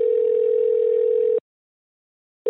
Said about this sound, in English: I started calling, sometimes getting her automated voicemail.